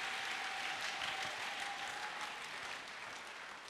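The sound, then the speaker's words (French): Applause from a church conference audience, a dense steady wash of clapping that continues without a break and eases slightly toward the end. “Acclamez pour vous-même.”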